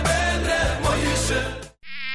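A mosquito buzzes in a sound effect for a Snoday mosquito repellent ad: a loud, continuous high whine that cuts out briefly near the end, then returns with a thinner tone.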